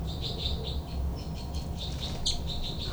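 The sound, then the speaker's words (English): Threat calls of two birds fighting: many short, high chirps repeating in an uneven rhythm, fairly faint over steady low background noise. “Both birds fight by threat call by 318.”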